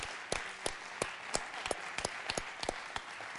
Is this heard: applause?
yes